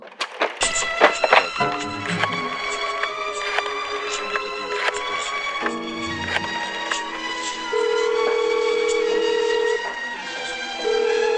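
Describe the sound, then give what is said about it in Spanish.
A telephone call is dialed and rings: a busy run of clicks and short tones gives way to a steady, low buzzing ring tone that holds for about two seconds before another ring begins. “Llamo a la casa del señor Antonio.”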